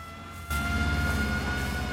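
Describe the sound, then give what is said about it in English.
An ambulance pulling away, its engine surging abruptly into a loud, steady rumble that holds to the end, over a faint constant hum. “The ambulance drives away”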